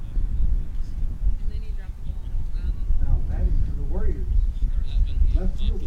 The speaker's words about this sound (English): And that wind kicking up, making it chilly out here as we get past 6 o'clock.